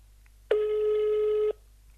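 The ringback tone of an outgoing telephone call sounds once as a single steady, mid-pitched tone about a second long, heard alone.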